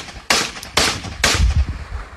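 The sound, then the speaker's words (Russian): Three separate sharp cracks of non-automatic small-arms gunfire, evenly spaced about half a second apart and each loud and abrupt, followed by a lower, rumbling clatter. “Вот из стрелкового оружия, но такого, не автоматического. Перезарядочка. И дальше стрельба пошла.”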